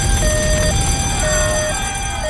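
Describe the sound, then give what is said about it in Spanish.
A fire alarm goes off in a fertility clinic: a steady electronic tone alternating between two pitches in a repeating pattern, set over constant dense rumbling noise. “salta la alarma de incendios. Corres buscando la salida.”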